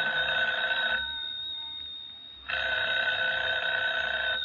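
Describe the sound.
A telephone bell rings in two long, trilling bursts separated by a short pause, loud and alone with no voices.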